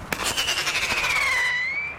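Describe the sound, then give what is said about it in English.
A screaming rocket fired from a cap gun to scare crows at night: a shrill whistle that sinks slowly in pitch, then lifts slightly at the end, over rapid crackling pulses. “Screaming rockets shot off from a cap gun zigzag into the night air.”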